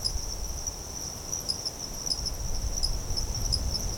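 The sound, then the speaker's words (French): Insects chirping at night in the dry season: a dense, continuous high-pitched chirring chorus with faint pulsing, and a soft low rumble beneath, with no voices. “on entend une biophonie qui est vraiment constituée quasi exclusivement d'insectes.”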